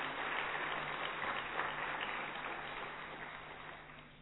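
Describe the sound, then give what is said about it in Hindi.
Faint, steady applause from an audience welcomes a speaker, a soft, even patter of many hands that holds for several seconds before gradually tapering off. “तो हम ऐसे आदरणीय ललित भाई जी का भी जोरदार करतल ध्वनि से स्वागत करते हैं।”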